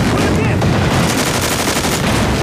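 Gunfire in a war-drama battle scene: a loud, dense, continuous barrage of overlapping shots that rattles without pause throughout.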